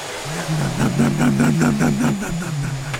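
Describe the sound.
A person imitates a vacuum cleaner with their voice, producing a steady droning hum and a wavering buzz that swells slightly in the middle and holds for about three seconds.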